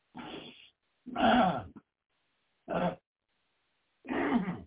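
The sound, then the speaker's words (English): A person pausing during a Bible reading clears the throat four times in separate rasping bursts, the third the shortest, with silences between them. “See if I can get my throat clear.”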